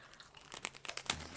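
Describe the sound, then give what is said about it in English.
A big bite is taken from a tough, crunchy snack that tastes like ice cream sandwich cereal, giving a faint run of crisp crackles and crunches that grow sharper toward the end. “I couldn't break off anymore. It's tough. You just take a big bite out of it.”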